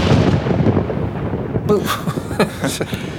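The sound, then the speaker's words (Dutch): Thunderclap sound effect, a deep rumbling roll that breaks into a crackling, booming burst partway through and stays loud and rough to the end. “een donderslag. Hoe toepasselijk. Volgens mij heb je weer aan je neiging tot theatrale effecten toegegeven”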